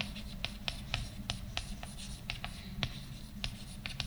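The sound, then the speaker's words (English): A pen or marker draws a stick figure, giving many short scratchy strokes in an uneven rhythm, faint over a low background rumble. “I'm going to draw on the inside here. I'm going to draw the physical man.”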